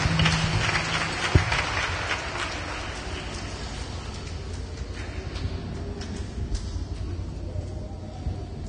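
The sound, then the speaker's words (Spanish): Loud, sustained applause from a religious gathering, a continuous dense patter with one sharp thump near the start, holding steady to the end. “bueno fuerte aplauso”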